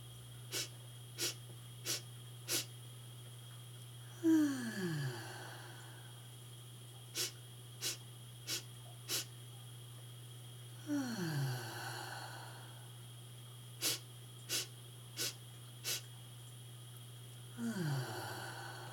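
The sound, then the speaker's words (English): Quick nasal sniffing breaths, four in a row, each set followed by a long, slow sighing exhale through the mouth that begins with a falling voiced tone. The pattern repeats three times over a steady low hum, with no talk. “Twitch your nose like a bunny as you take 3 to 4 quick breaths in through your nose, then breathe out through your mouth slowly with a sigh.”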